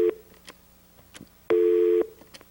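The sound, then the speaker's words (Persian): A telephone busy tone after a caller's line cuts off, the tail of one beep followed by a single steady mid-pitched beep of about half a second, with faint clicks in the gaps. “خط 4 از ایران. خیلی خوب قطع شد.”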